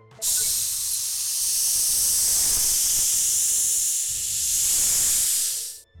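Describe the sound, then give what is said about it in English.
In a video game, candle wax melts on embers with a loud, steady sizzling hiss that holds for about six seconds and then cuts off. “The heat is melting the wax.”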